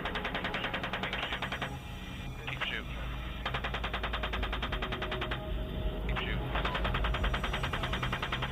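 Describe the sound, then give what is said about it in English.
A US Army Apache helicopter over a Baghdad street in 2007 fires in a few bursts of rapid automatic gunfire, thin and muffled, with soldiers' radio voices talking alongside. “The U.S. Army video filmed in 2007 showed a group of men, almost all unarmed, being gunned down in a Baghdad street by an American Apache helicopter”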